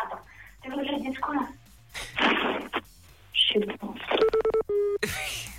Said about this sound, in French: Prépare-toi avant d'enclencher, oui. Tu vois, de composer le numéro, parce que sinon après c'est trop tard.